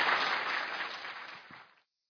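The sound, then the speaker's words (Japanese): Studio audience applause sending off a guest speaker: steady clapping that gradually fades and stops shortly before the end. “大きな拍手でお送りください。”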